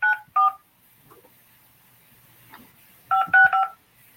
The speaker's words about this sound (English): Enter your 6-digit PIN number.